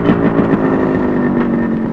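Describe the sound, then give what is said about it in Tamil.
A motorcycle coming to a stop, its engine giving a low, even idling hum that stays fairly loud and steady throughout. “ஏய் பைக்கப்பா, கொஞ்சம் வண்டி நிறுத்து.”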